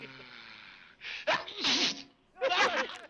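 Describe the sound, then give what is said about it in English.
A cartoon dwarf sneezes in a 1937 animated film: voiced, tonal sounds build up, then loud breathy bursts follow, and a second sharp burst comes shortly after. “And you're sneezing.”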